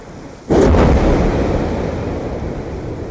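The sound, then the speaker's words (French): Glacier collapsing: after brief quiet, a sudden loud deep roar breaks in and continues as a heavy sustained rumble that eases off only slightly. “C'est pas un tir de mine, mais c'est un effondrement quand même de glaciers.”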